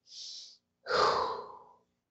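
A deep breath during a guided breathing exercise: a short, soft inhale followed after a brief pause by a longer, louder, breathy exhale that gradually fades, with no talking.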